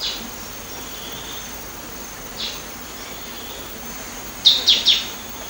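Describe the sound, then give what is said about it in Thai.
Small birds, likely warblers, calling in a tropical mountain forest on Doi Inthanon in winter: a few faint, high, thin chirps, then three quick bright calls near the end over a steady soft hiss. “แต่พอถึงฤดูหนาวนกกระจิดอีกหลายชนิดจะอพยพมาสมทบยังดอยอินทนนท์แมลงที่มีอยู่มากมายในป่าเขตร้อนช่วยให้นกเล็กๆเหล่านี้มีชีวิตรอดอยู่ได”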